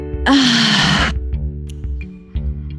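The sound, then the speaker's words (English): A deep breath is let out as one long, loud exhale of about a second, rushing and breathy with a low voiced sigh in it, then fades into quiet background. “let's end with taking the let it out deep breath. You ready? Okay. Inhale. Let it out.”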